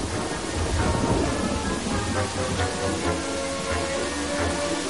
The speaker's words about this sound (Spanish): La tormenta se intensifica y el escritor pedalea a duras penas bajo el aguacero.